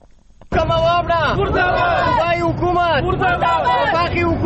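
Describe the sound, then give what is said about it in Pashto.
Protesters in Saidu Sharif, Swat, women among them, shout slogans against power cuts; loud massed voices break out abruptly after half a second and keep up as a dense, sustained roar of chanting. “له سواته نیاز احمد خان رپورټ لري چې د مظاهره کوونکو په غږ پیلېږي.”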